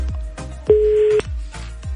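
A telephone call being dialed, with one steady beep of about half a second among several short, sharp clicks.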